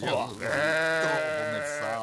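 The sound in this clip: A sheep bleats in one drawn-out, wavering call lasting about two seconds, loud and quavering.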